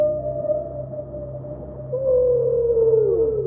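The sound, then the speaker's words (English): Whale vocalization: a long, low moaning call holds a steady tone, then swells into a louder, wavering song whose pitch slides downward near the end, with no talk over it. “Now, that's the sound of whales on our planet.”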